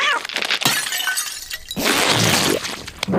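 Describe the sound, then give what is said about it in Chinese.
A shell breaking: crunchy cracking and brittle crackling come in a few bursts, and the loudest, longest stretch fills the second half. “小王，我弄破了你的壳。”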